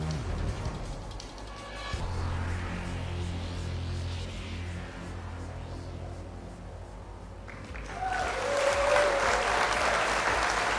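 Audience applause greets a guest arriving on a live show, a dense, sustained clatter of clapping that swells noticeably louder toward the end.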